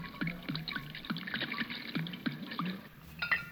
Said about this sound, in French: Tenez, prenez un verre d'eau. Voilà. Ah, buvez.